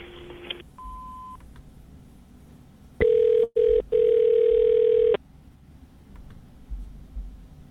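An answering machine beep sounds on a telephone call to a store. A couple of faint short tones come first, then a loud, steady tone lasting about two seconds, broken by two brief dropouts, over faint line noise.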